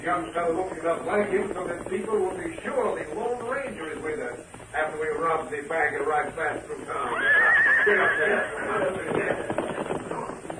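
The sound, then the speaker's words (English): A horse whinnies as several horsemen pass along a trail. The high wavering neigh rises briefly near the end, mixed in with ongoing voices. “Also, one of the horses whinnied as they passed.”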